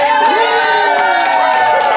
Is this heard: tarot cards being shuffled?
no